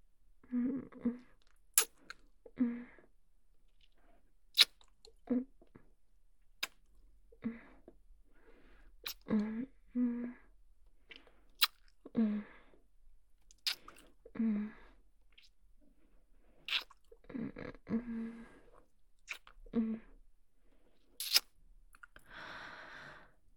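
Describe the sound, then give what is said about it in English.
Kissing on the lips with soft, wet mouth sounds: many brief, quiet smacks and lip pops come in an irregular sequence, separated by near-silent pauses. “A deep, sensual kiss on those lovely, lovely lips.”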